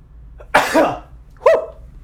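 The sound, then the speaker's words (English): Two sharp sneezes from a person with sinus trouble. Each is an explosive burst with a brief voiced tail, separated by about a second, with no talking around them. “I apologize, guys, sneezing, man.”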